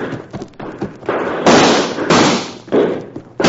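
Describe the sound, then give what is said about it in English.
Gunfire in a radio drama shootout: a run of loud, sharp reports, with a few lighter cracks leading into several heavy, booming blasts that ring out and decay between shots. “Well, Chad, she's been shot. Use your rifle, Jim. Use your rifle.”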